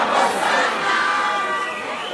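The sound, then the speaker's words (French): A crowd chanting and shouting as it closes in around someone, a loud, continuous mass of voices with sustained sung tones running through it. “On chante et on lance. La foule l'entoure.”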